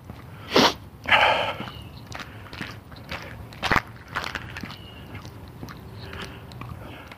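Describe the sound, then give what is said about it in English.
Footsteps of someone walking in the shade on a hot day. The steps are irregular and crunchy, with a few louder scuffs early on and softer steps after, over a steady outdoor background. “I'm walking in the shade, I'm working up a sweat, I can't believe.”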